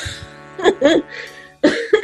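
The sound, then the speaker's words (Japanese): Someone coughs after choking: a few harsh, throaty coughs in two short clusters separated by a brief pause. “むせたわ。”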